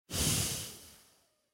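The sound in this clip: A single long exhale through the nose closes a breathing exercise: a soft, airy hiss that swells quickly, then tapers away over about a second, heard alone.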